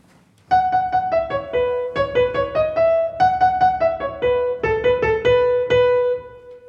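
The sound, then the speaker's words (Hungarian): A folk-song-style melody with an altered meter, played as a clear single line of many distinct struck notes in uneven groupings, with brief pauses between phrases and no voices. “Ehhez képest a Bartóki dallam meg így hangzik.”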